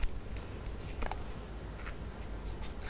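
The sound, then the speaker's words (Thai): Scissors cutting coloured paper into squares make faint, crisp snips and small rustling ticks scattered across a quiet background, with no voices. “ก็จะใช้กระดาษสีและใช้กรรไกรนะคะในการตัดเป็นสี่เหลี่ยมนะคะแบบนี้เลยค่ะ”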